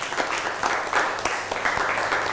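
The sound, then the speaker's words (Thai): Classmates clapping for a fellow student: steady, dense applause from a group, sustained evenly throughout with no voices standing out. “นั่งลงได้ครับปรบมือให้กับเพื่อน”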